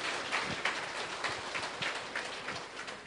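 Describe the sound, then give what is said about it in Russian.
A seminar group clapping for one another, a faint, steady patter of many hands with scattered sharper claps standing out. “давайте порадуемся, поприветствуем друг друга, что мы собрались. Похлопаем друг другу.”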